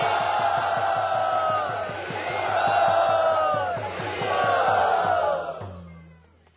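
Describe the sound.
A crowd at a Hare Krishna gathering shouting a loud welcome, sustained voices swelling and easing in a few long waves over a fast, steady pulse, then dying away at the end.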